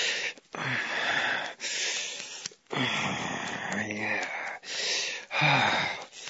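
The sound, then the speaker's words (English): A woman pants in heavy, breathy gasps, several rhythmic rasping inhales and exhales with brief catches between them, loud and steady throughout. “You wanna listen to me pant for you?”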